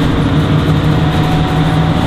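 Interior rumble of a JR Shikoku express train running toward Matsuyama, a loud, continuous low drone with a steady humming tone underneath, unbroken and without voices.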